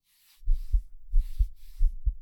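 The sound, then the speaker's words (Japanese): Racing heartbeat thumping in low, muffled double beats, three lub-dub pairs in quick succession, fairly loud and alone with no talk. “全然落ち着いてないよ、私の心音。”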